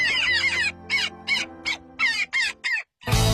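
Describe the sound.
Daurian jackdaw calling: many short, harsh, high-pitched chattering calls in quick succession, loud and clear, with brief gaps between them.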